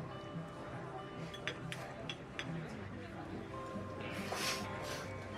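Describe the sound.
Faint clinks of cutlery against dishes as two diners start on chicken fried steak and mashed potatoes in a diner, a few light taps under soft talk.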